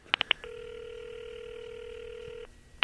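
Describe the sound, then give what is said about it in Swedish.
Telephone call tone from a rotary dial phone: three short sharp clicks, then a steady, even tone holding for about two seconds, followed by one more click at the end. “Jag använder nu en sån här skiva. Snurrskiva.”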